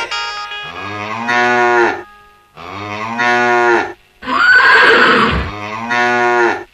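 A water buffalo in the jungle lowing: several long, loud, deep moos with strong harmonics, separated by short pauses, with one harsher, noisier bellow among them and no talk.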